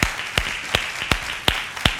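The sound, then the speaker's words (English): A church audience clapping hands in praise together: six crisp claps in unison at an even, steady beat, loud and alone without talk. “How about we give Jesus one more hand clap of praise together?”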